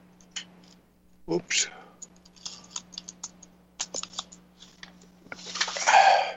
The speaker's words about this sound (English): I'll go in and I gotta type in the sites. And I got to type in Virginia